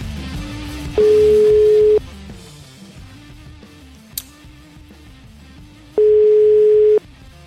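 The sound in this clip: Ringing tone of an outgoing telephone call: two steady, mid-pitched one-second tones separated by a long silent gap of about four seconds, over a constant noisy background hiss.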